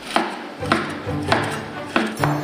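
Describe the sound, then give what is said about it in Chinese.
Five sharp knife strikes as cooked beef is cut into thin, even slices, each a crisp tap on a board, spaced at an unhurried, fairly regular pace over a low background hum. “提前煮熟的牛肉切成均匀的薄片”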